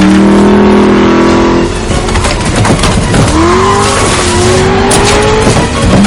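A car engine roars and accelerates away during a film car chase near a border, the loud, continuous growl climbing in pitch as it revs up over a few seconds.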